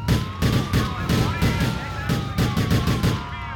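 Police sirens wail from cop cars in the video game GTA IV, their wavering tones sliding up and down beneath repeated sharp bursts of gunfire.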